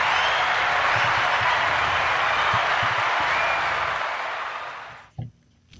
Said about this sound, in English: So please put your virtual hands together as we welcome Stephen to the Special Chronicles show in our Unified at Work series.